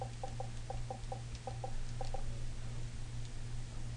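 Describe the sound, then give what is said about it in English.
Faint clicking of keys on an Xbox chat pad keyboard, with many quick taps in short uneven bursts over the first two seconds, then stopping. A steady low hum runs underneath throughout. “I can go here, and I've actually got a chat pad, so I just type, what are you doing?”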